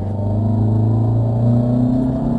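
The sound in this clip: A four-wheel-drive soft-top with a 2-litre turbo petrol engine making 175 kW accelerates, giving a loud, steady low engine drone that holds an even tone throughout.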